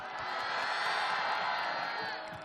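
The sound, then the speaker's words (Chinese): Audience applauding and screaming for Jackie Chan and his stunt team at a ceremony, a fairly faint, continuous wash of cheers that tapers slightly at the end. “让我们用最热烈的掌声献给成龙先生以及成家班所有的成员， 尖叫声。”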